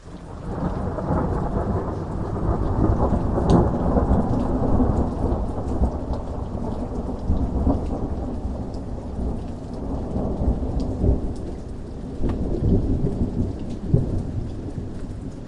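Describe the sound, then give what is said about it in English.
Steady heavy rain with thunder from a fierce storybook thunderstorm over a forest: a continuous loud rushing downpour with rumbling throughout and no voices. “One day, a storm”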